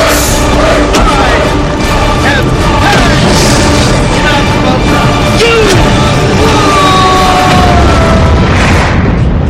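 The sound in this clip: Weapons firing from the Starship Enterprise in a Star Trek sound effect: loud booming blasts and bursts over a dense, continuous rumble, with whistling tones sweeping through the mix.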